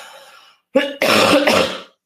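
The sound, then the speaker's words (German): Harsh coughing from a person with a summer flu: a short throat-clearing cough, then a longer, rough, chesty cough, loud and alone after a faint murmur. “Moment, ich habe wirklich die Sommergrippe und ich huste jetzt einfach mal was hier.”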